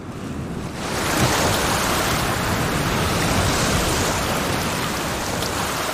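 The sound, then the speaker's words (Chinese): Waves of a rising tide wash onto a shore, forming a dense, loud roar of surf. It swells in within the first second and holds steady to the end. “潮水开始上涨”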